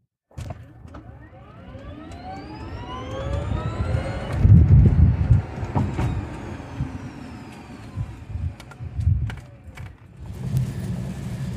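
A BMW i3s electric car drives off, its motor whine sweeping upward in pitch over low road rumble, with scattered clicks and creaks.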